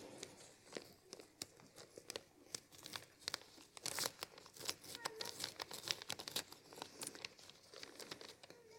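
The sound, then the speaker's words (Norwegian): Someone tears open a paper envelope in faint, irregular bursts of crinkling and ripping that carry on for several seconds, growing busier toward the middle. “Og da må vi åpne konvolutt nummer to.”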